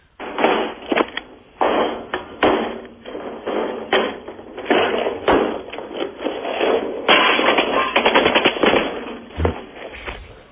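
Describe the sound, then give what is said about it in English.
Machine-gun fire sound effect played from a CD: rapid rattling bursts of sharp, dense cracks, loud and nearly continuous with brief gaps, with a muffled, band-limited tone. “Sound effect CD already in? I've only got about 10 bullets in.”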